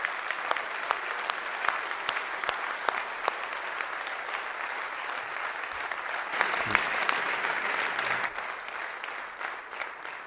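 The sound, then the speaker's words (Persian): Sustained audience applause at a lively live gathering, a dense, steady wash of many hands clapping for about ten seconds, with even loudness that eases slightly toward the end. “یه لحظه اگر که بیاین تشویق کنیم.”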